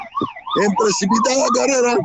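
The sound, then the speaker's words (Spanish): An ambulance siren wails loudly as the vehicle speeds past on a city avenue, its pitch sweeping rapidly up and down in a repeating pattern. “en precipitada carrera, llega una ambulancia, no, se fue recto con dirección hacia la avenida Guayaquil.”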